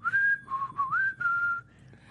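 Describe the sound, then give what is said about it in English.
A person whistling a creepy tune, a short melodic phrase of several clear, pure high notes with gliding slides between them, heard alone without talk. “I find myself whistling to this day when I'm like walking around a store alone or something and like looking for things, unconsciously going,”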